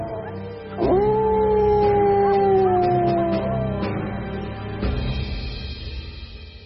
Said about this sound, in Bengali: আর অদূরেই একটা কুকুর যেন আর্তনাদ করে কেঁদে উঠল।